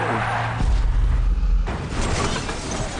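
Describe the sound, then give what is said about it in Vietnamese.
The boss's car skids, giving a loud, rumbling burst of mechanical noise with a heavy booming thud, then a continued harsh, noisy roar. “Ôi chúa ơi, chuyện gì vậy? Đó là xe của ông chủ mà.”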